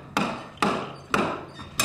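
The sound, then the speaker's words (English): During demolition of a former two-story home, workers split apart wood from an oak staircase. Four sharp, loud cracking blows land about half a second apart, and each one decays quickly before the next. “Jim Primdle watches as a handful of workers split apart wood from a staircase.”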